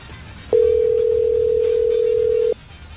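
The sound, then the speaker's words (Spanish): A single steady telephone tone after a call is hung up. It holds one unchanging mid-pitched note for about two seconds, starting and stopping abruptly over a faint background hum. “¿Le volvemos a marcar o qué? Ya nos colgó.”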